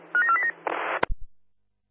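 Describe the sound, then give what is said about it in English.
Telephone keypad dialing tones: a few short, clear beeps in quick succession, followed by a brief rush of noise and a sharp click before silence. “Received, dialing now,”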